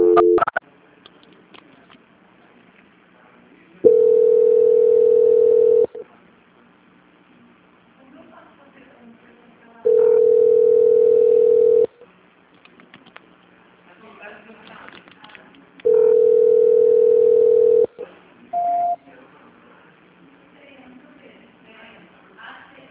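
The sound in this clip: Telephone tone plays while a call is transferred: three long, steady mid-pitched beeps of about two seconds each, evenly spaced, followed by a brief, higher blip. Faint background noise fills the gaps.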